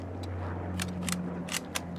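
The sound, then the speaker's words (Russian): A Mosin rifle bolt is worked, giving several faint, crisp metallic clicks over a steady low hum. “Поднимает винтовку Мосина, передергивает затвор.”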